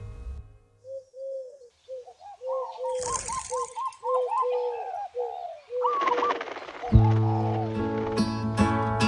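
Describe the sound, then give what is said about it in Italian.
Pigeons cooing in many soft, repeated low coos that run in steady rhythmic series, followed near the end by a louder, sustained tonal sound. “Si sentiva solo il tubare dei colombi.”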